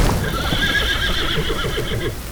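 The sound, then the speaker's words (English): A horse whinnies in an animated fantasy scene, made by a flying water horse: a long, wavering high neigh runs through the whole clip, with soft rhythmic thumps underneath. “A flying water horse? Really?”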